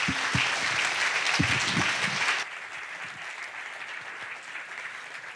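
An audience applauds to welcome a visiting pastor at a church service: dense, loud clapping for about two and a half seconds, then an abrupt drop to a softer, thinner patter that carries on to the end.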